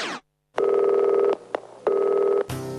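Telephone ringing sound effect: two long, steady electronic rings separated by a short gap with a faint click between them, loud and without speech, after a brief burst at the start and a different sound at the end.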